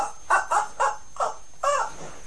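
A toy dog barks five times in short, tonal electronic yaps. The first four are quick and evenly spaced, and the fifth is slightly longer. There is a pause before the last bark, and no talking is heard.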